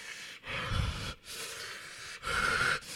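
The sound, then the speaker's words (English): A voice imitates heavy, rasping breathing through an oxygen mask: a few drawn-out, hoarse breaths in and out, with no words. “he's breathing like this oxygen and he's like”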